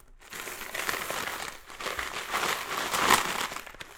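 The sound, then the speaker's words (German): Crinkling and rustling of an overstuffed paper envelope full of loose coins being handled, a continuous papery crackle that swells and eases, heard alone without talk. “deswegen habe ich so einen Briefumschlag, wo ich alles Kleingeld reinmache. Ist wahnsinnig überfüllt schon.”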